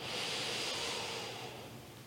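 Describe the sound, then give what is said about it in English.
A deep breath in, drawn during a guided breathing exercise: a soft, airy rush of air that holds steady for about two seconds and then tapers slightly, quiet and with no talk. “Exhale. One more time, big breath in.”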